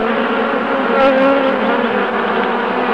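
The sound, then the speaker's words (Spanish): Flies buzzing in a steady, continuous drone, loud and unbroken for the whole moment, with no voices. “Estas moscas resuelven crímenes.”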